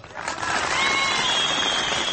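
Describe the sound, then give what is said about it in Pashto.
A crowd applauding at a poetry recital (mushaira). The clapping swells in after a brief quieter start, then holds dense and steady to the end. “مشاعره لا هم هماغسې مسته روانه وه او په زرګونو ګډونکوونکو یې چکچکې کولې.”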